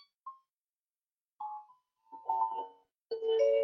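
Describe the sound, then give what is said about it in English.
A doorbell chime rings out in a few short, fairly quiet tonal notes, spaced apart, that grow fuller toward the end. “Please excuse the doorbell. I don't know who is at my doorbell.”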